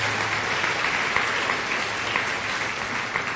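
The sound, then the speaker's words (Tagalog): Applause from a church audience during a sermon: dense, steady clapping that fills the whole stretch at an even level, with no voices standing out. “Sino nakaranas sa pagiging galante ng Diyos sa kanyang buhay, pakitaas ng kamay? Totoo yan, ano? Palakpakan natin ng Panginoon because”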